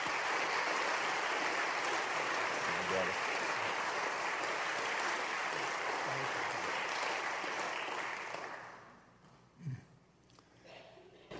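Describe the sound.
An audience applauds to welcome a speaker: a full, sustained burst of clapping holds evenly for about eight seconds, then fades away, leaving near quiet with a few faint scattered sounds.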